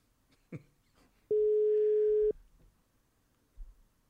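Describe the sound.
A steady ringing tone from an unanswered telephone call during a prank call: one even, mid-pitched beep lasting about a second, with only faint background noise before and after.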